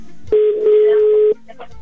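A telephone rings out on a repeat dialing attempt: one steady, even-pitched ringing tone lasts about a second and then stops, leaving only faint low sounds.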